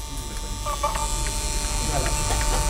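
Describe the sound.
A Nagra VPR 5 video tape recorder runs with its cover open, giving a steady, dense mechanical buzz over a low drone with faint ticks, unbroken from start to finish.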